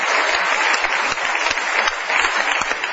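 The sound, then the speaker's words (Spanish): Dense, loud audience applause for a guest, a continuous roar of many hands clapping at steady strength for the whole stretch, with no voices over it. “Un aplauso muy grande para el querido”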